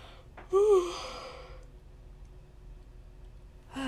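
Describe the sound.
A yawn during an on-camera tarot reading: one drawn-out voiced exhale lasting about a second, rising quickly in loudness and then trailing off into near silence, with no talk over it.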